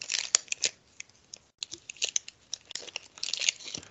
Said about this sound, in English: I'm going to open up this Pokemon pack. So let's go ahead and get this open.